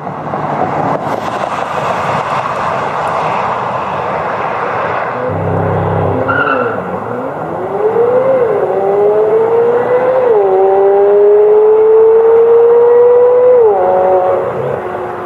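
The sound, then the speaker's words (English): A high-revving sports car engine under acceleration testing, likened to a Ferrari winding toward 9,000 rpm: a steady roar gives way to a loud engine note that climbs in pitch, holds, then rises again, with no talking. “acceleration testing. And listen to some of this and just think Ferrari, Ferrari 488, Ferrari, you know, 458. Think of some of this high winding 9,000 RPM.”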